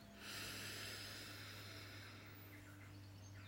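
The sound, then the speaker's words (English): A slow, deep breath in, a faint and steady airy rush that lasts for several seconds over a low, constant hum. “So let's close our eyes, take a nice deep breath in,”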